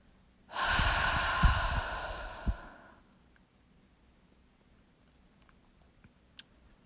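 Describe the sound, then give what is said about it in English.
A single slow, deep exhale during a breathing exercise, a long soft rush of breath that swells and then fades out, leaving near silence with a few faint ticks. “Let's do it together one last time. Inhale. And when you're ready, you can exhale it all out.”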